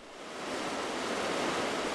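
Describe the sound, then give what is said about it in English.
Rushing water from a narrow, fast-moving creek coursing over a bed of flat stones in a steep Himalayan foothill valley, a dense, steady hiss that swells slightly at first and then holds evenly, with no voices. “A narrow, fast-moving creek courses over a bed of flat stones running through a steep valley in the foothills of the Himalayas.”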